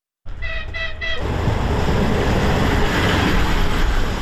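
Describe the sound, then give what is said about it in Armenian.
An electric commuter train from Dnipro arrives at the railway station in the small town of Mezhova. Two short horn toots sound at the start, followed by a loud, steady rolling rumble of the train. “Դնեպրից էլեկտրագնացք է ժամանում Մեժևայա քաղաքատիպ ավանի երկաթուղային կայարան։”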